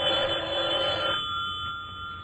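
A telephone ringing in a secret service office, a steady high-pitched electronic tone running through the whole clip, fuller in the first half and thinner after, with no talk.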